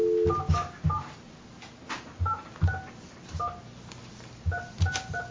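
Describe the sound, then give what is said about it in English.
Telephone keypad dialing tones from someone dialing a number, heard as a series of short, bright dual-tone beeps in uneven bursts separated by pauses, with no talking. “Oh, no, I dialed it wrong.”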